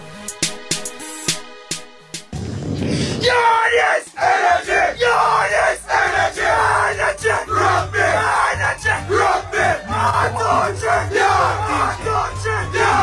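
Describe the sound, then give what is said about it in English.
A Jamaican men's under-19 rugby team shouts its pre-match war cry. Many loud, forceful group yells come in a steady chanted rhythm and hold strong to the end. “That's the sound of Jamaica's men's rugby under-19 team, sharing how they get themselves charged up to compete.”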